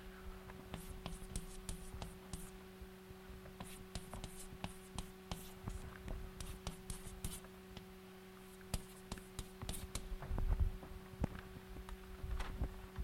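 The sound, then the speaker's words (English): Writing on a board during a maths lecture: faint, irregular scratching and tapping strokes come in short bursts over a steady low electrical hum. “Let me just write down.”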